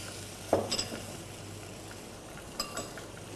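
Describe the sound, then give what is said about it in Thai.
Red curry paste stir-fried with coconut cream in a pan gives a faint, continuous sizzling hiss, broken by two short scrapes and clinks of a utensil against the pan. “ผัดให้มีกลิ่นหอม”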